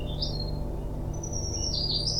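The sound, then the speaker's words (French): Birds chirping outside a hospital window, giving a few thin, high tweets over a steady, loud low droning hum. “Le chant des oiseaux venant de sa fenêtre lui amenait un sentiment de paix et de bien-être.”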